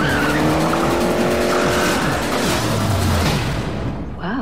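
Herbie the racing car roars along with tires skidding, its loud engine and squealing rubber blending into one continuous, unbroken rush.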